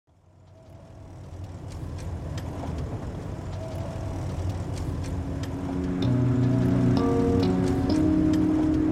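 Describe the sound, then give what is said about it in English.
Car driving through farmland outside Lemoore, California, on a morning road: a steady low engine and tyre rumble that builds gradually and grows louder, with faint tonal hums later on and no voices. “I'm driving through farmland outside Lemoore, California.”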